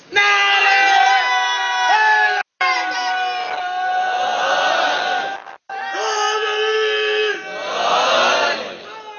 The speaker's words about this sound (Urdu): نعرہ حیدری نے کہا آپ نے